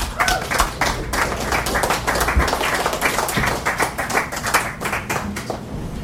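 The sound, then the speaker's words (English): An audience applauds at a poetry reading event. Dense, sustained clapping from many hands holds a steady level for the whole stretch, with no voices standing out. “But my heartfelt thanks to all of you for coming out. Give yourselves a hand.”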